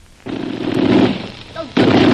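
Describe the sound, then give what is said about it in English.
A freshly assembled machine gun fired in a test, two loud sustained roaring bursts of rapid fire, the second starting just before the end. “Well, it's been a long time since I put a machine gun together. I had to make sure it worked. Well, it worked all right.”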